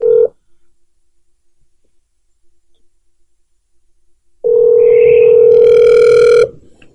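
Ringing tone of an outgoing telephone call that goes unanswered: a short burst of steady electronic tone, a long silent gap, then a second, longer burst of the same loud tone.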